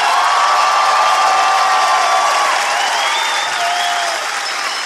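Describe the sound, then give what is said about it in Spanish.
Loud applause from a crowd, a dense, sustained wash of clapping with a few whistles rising above it, easing slightly toward the end. “Y que siga el aplauso”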